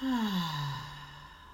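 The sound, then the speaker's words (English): A deep, voiced exhale like a sigh during a guided breathing exercise, one long breath out whose low tone slides downward and fades over about a second and a half. “Breathe in and out.”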